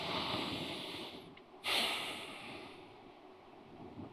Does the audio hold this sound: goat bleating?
no

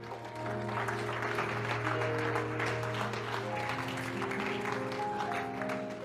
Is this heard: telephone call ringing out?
no

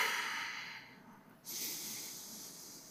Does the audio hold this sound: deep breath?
yes

